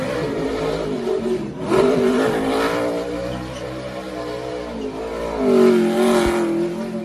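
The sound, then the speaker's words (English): A NASCAR Cup Chevrolet Camaro race car's engine revs and roars as it does donuts near a town square. The engine note swells into two louder surges, with no talk. “Elliott returning to Dawsonville, where he drove his NASCAR Cup Chevrolet Camaro around town, then did several donuts near the town square.”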